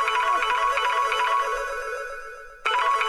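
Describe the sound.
Telephone ringing on an outgoing call, a loud, steady buzzing ring tone rich in harmonics. It fades slightly, cuts off briefly near the end, then resumes, with no voices.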